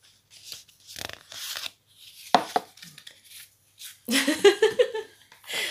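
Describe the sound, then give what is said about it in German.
A deck of cards is shuffled for a question-and-answer card draw: a few short papery riffles and rustles, then a longer, denser flutter of cards toward the end, with soft breathing between. “Ja, misch du. Du musst nur die Frage dann stellen. Du mischst, ich stelle die Frage.”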